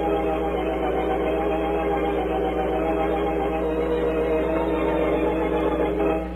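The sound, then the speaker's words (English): A driverless bus engine speeds along a desert road in a steady, loud, low drone that holds unchanged throughout, with no voices. “The bus is speeding, and there ain't no driver.”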